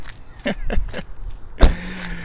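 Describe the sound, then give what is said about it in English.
A person climbs out of a car: a few short clunks and shuffles, then one louder thud like a door shutting, followed by a faint low hum. “Not anymore. Now I'm getting out of my car.”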